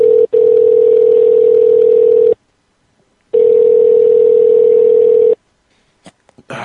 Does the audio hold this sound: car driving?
no

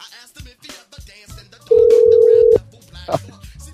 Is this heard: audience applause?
no

